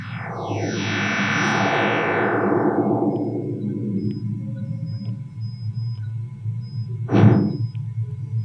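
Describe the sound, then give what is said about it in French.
Sonified solar radio bursts from data cleaned to keep only solar emissions: a long, dense sweep glides steadily downward in pitch over several seconds, then a short, rapid downward swoop follows, over a constant low rumble. “L'avantage en numérique, c'est qu'on peut nettoyer les données. Voilà le même avec uniquement les émissions solaires.”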